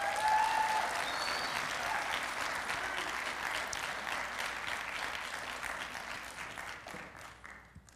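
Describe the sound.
Applause from a church audience welcoming a guest speaker to the stage: dense, steady clapping that holds level and gradually thins out toward the end.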